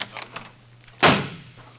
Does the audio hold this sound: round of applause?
no